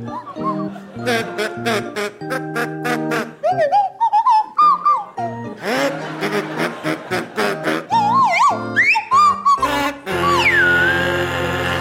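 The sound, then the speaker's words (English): Swanee whistle and kazoo play a Christmas carol together as a round in a comedy panel game: buzzy, nasal kazoo melody lines with sliding, swooping whistle glides, many short phrases in an uneven, rather wobbly rhythm. “your carol is Deck the Hall with Boughs of Holly, and it's to feature Willie Rushton on kazoo and Tim Brooke-Taylor on Swanee Whistle.”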